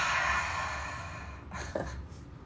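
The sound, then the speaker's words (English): A deep breath drawn in through the nose and released fully through the mouth during a guided relaxation. The breathing is soft and airy, swelling and then fading, heard alone without talk. “So I'm going to take another deep breath. I invite you to take one with me. Deep inhale through our nose. Full exhale through our mouth.”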